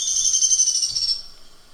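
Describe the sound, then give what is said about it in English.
Whinny call of juvenile birds in the nest: a single thin, high whistled note that wavers and slides slightly lower for about a second before fading out, heard alone. “And the juveniles were starting to do a little bit of that whinny call when they were in the nest.”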